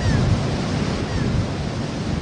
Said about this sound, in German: steht am Strand, schaut ernst aufs Meer.